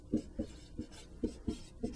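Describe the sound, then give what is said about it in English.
Writing on a board during a maths lecture on solving equations: six short, low scraping strokes in an uneven rhythm, fairly faint and with no voices. “And before I write that down and continue, I really should write”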